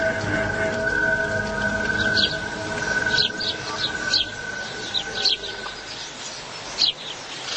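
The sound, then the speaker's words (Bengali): Rain falls after a spell of wind, making a soft continuous hiss with scattered brief bright accents and a sustained tone running underneath. “বাইরে তখনও বাতাস বইছে show show করে, খানিকক্ষণ বাদেই নামলো বৃষ্টি।”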